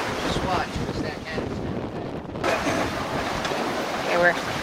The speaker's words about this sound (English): We're hooking up the preventer line. We're sailing downwind. Wind's behind us. Actually, we're on a broad reach.